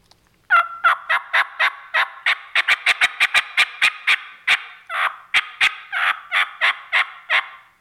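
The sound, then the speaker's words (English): A diaphragm turkey call imitates a wild turkey hen with many sharp, high yelps, then a run of fast cutts. The notes come in a quick, uneven rhythm, speed up in the middle and sound loud and alone. “So if I'm calling at him, if I'm yelping and he gobbles right away, I'll yelp and then I'll cut really fast.”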